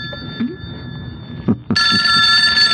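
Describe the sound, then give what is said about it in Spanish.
A telephone rings with a loud, steady electronic ring that starts suddenly partway through and lasts to the end. A few faint low thumps come before it. No one speaks. “Me parece que es una llamada importante de ese señor.”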